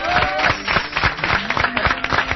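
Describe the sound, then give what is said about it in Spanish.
Applause for a radio colleague comes as a run of irregular, crisp hand claps mixed with voices, lively and moderately loud throughout. “Un aplauso para la gran Marta Casas. Bravo, ovación.”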